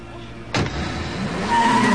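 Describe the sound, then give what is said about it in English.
A car skids onto a rain-swept main road. A sudden loud burst gives way to a sustained rushing noise of tires and engine that holds steady and grows slightly louder toward the end. “The car skids onto the main road, narrowly missing a truck coming in the opposite direction.”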